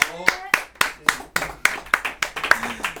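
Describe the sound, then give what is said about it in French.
Audience clapping in a steady rhythm for a crew, a series of sharp separate claps about a quarter second apart, with a voice speaking underneath. “Je remercie le Kinjo Crew qu'on peut applaudir très fort. Bravo.”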